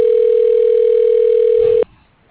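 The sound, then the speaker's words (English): A telephone dial tone sounds during an automated phone-menu call. It is a steady, unbroken mid-pitched hum that holds for nearly two seconds, then cuts off abruptly into near silence. “Dialing.”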